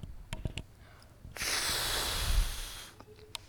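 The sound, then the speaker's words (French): Someone blows hard on an old, dusty book: after a few small clicks comes one sustained, airy gust of about a second and a half that then stops abruptly. “Il est drôlement poussiéreux, dit Dimitri. Et il souffle dessus.”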